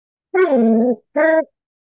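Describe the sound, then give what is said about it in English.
Two drawn-out vocal sounds from a Labrador dog, tonal and moaning. The first is longer and dips slightly in pitch, and the second is shorter after a brief gap. Both are loud and clear, with no talking. “That's a Labrador joining in the conversation.”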